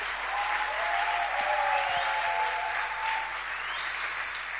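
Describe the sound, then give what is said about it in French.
Audience acclamation and applause at a church gathering: a loud, continuous roar of many hands clapping that holds evenly for nearly five seconds. “C'est tout, l'acclamation”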